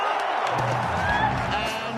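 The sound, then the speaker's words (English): A crowd roars and cheers at the NFL Draft as the Green Bay Packers pick a Texas wide receiver: a dense, steady, loud roar with a voice talking over it. “Listen to this crowd. Oh, baby.”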